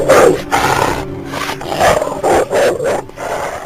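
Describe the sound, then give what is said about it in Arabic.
Loud, rough dog vocalizations come from a bathroom, in several harsh bursts with short gaps between them and no other sound alongside. “وبدأ صوت كلب يظهر من الحمام”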